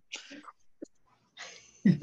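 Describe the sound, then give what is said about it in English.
A voice imitates a deep, visceral breath: a few short breathy bursts, then a longer, rougher exhale ending in a low voiced sound. “You just hear that visceral breath.”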